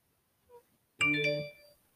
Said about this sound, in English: that was my phone.